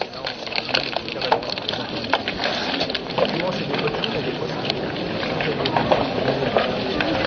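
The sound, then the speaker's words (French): Stones falling and crashing in a video game make a dense, continuous rumble with many sharp cracks and clatters scattered throughout. “Ah, voilà les cailloux qui sont arrivés.”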